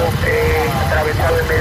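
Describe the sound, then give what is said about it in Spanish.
Firefighting vehicles and machinery work at a wildfire, producing a loud, steady engine drone with a low rumble and a thin tonal whine running through it without a break. “Son los bomberos en plena actuación.”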